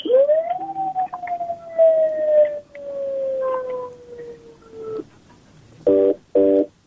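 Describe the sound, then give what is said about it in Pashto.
A telephone line tone after a call is cut off: a long electronic tone that slides slowly lower over several seconds, followed by two short buzzy tone bursts. “اړیکه یې پرې شوله.”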